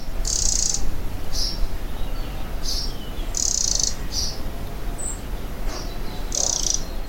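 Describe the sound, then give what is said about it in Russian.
Dry, crackling rattle call of a wren, given in several short, high bursts separated by pauses over a steady background hiss. “Вот вы сейчас можете послушать треск крапивника.”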